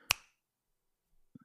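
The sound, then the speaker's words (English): A single sharp finger snap rings out alone, the snap heard in recent country music, followed by near silence with a couple of faint soft sounds at the end. “That's the sound of the country snap. That's the sound that's infiltrated country music lately.”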